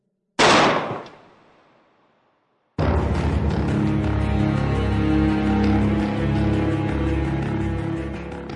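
A single loud gunshot cracks out and decays over about a second and a half, followed by a short silence and then a sustained musical passage that runs to the end.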